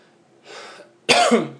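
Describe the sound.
Coughing from a person with an allergy: one loud, harsh burst of coughing near the end, with two close peaks, after a quieter stretch of faint breathy noise.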